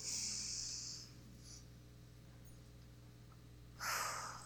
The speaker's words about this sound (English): we're just going to take a big breath together. So we're going to inhale.